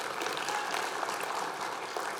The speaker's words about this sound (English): Oh, yeah, we should clap for that.